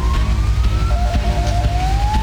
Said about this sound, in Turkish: Aracıyla birikintide mahsur kalan bir kişinin imdadına ambulans yetişti.